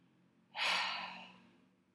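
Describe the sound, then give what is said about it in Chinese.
A single deep exhale through the mouth during a meditation: a breathy whoosh that begins abruptly and slowly fades away, faint, over a low steady hum. “再做一个，鼻子吸到最饱，大口吐气，”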